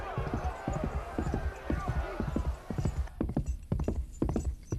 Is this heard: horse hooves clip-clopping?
yes